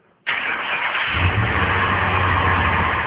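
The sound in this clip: A car engine starts abruptly and loudly, then settles into a steady, low idle rumble that continues to the end with no talk.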